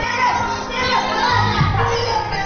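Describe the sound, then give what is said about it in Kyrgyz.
Crowd of children at a school singing event, ranging from toddlers to upper-grade pupils lined up waiting to sing: a continuous loud hubbub of young voices chattering and shouting. “Өзүбүз көрүп тургандай бул жерде 2 жаштан баштап жогорку класстын окуучуларынын курагындагы балдар дагы бар экен. Биз азыр ушул жерде катар тизилип өздөрүнүн ырдоо учурун күтүп турган балдар менен сүйлөшүп көрөлү.”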